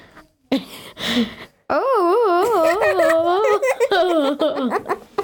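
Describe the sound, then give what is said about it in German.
A child vocally imitates a caterpillar moaning with a stomach ache. A few short breathy bursts give way to a long, loud, quivering moan whose pitch wavers up and down repeatedly. “Ich möchte euch vormal machen, wenn sie Bauchschmerzen hat.”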